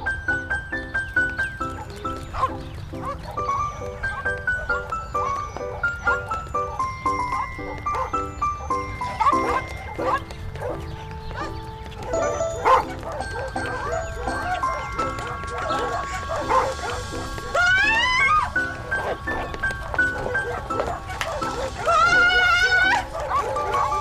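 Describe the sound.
Dogs barking as they chase a woman in a red dress, the barks scattered among jingling and bright, tonal music-like sounds that run throughout.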